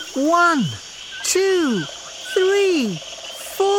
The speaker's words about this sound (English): Look and listen. In the jungle.